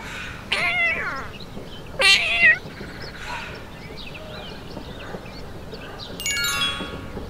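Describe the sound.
A cat meows a few times in short, high, wavering calls, the loudest two close together near the middle, over a faint steady background.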